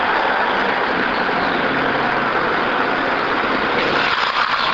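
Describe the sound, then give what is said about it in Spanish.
Dense city street traffic, with a driver turning against the flow: a steady, loud wash of engine rumble and tyre noise that holds at a constant level throughout, with no clear separate passes. “Automovilista virando contra el tránsito, se ve la cara de preocupación de los automovilistas.”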